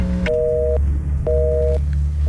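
A telephone line sounds after the caller hangs up, giving a busy tone of evenly spaced, steady two-pitch beeps. Two full beeps are followed by the start of a third, over low line hiss.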